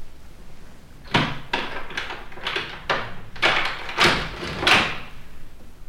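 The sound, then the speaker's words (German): An old rusty key turns in the lock of a small door, which then springs open: a series of several sharp, creaky scraping and clattering bursts at uneven intervals, moderately loud, with no voices. “Da sprang die Türe auf”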